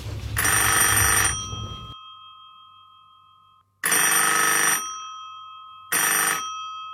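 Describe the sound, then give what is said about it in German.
Telephone bell ringing for an incoming call: three loud, shrill rings, the first long, each followed by a gradually fading tail. The third ring is cut short. “Und jetzt warten wir auf den Anruf von Rita Kotzur.”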